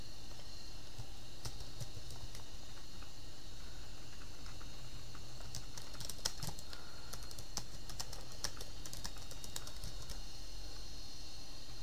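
Typing on a computer keyboard: rapid keystrokes clatter continuously over a steady background hiss, with a denser flurry of keys near the middle.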